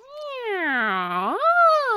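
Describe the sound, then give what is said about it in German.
A dark grey cat on a hay wagon gives one loud, drawn-out meow. Its pitch dips low through the middle and then rises again toward the end. “Die Katze, die auf einem Heuwagen sitzend auf sie hinunterblickte, hatte ein dunkelgraues Fell und leckte sich genüsslich die Tatzen.”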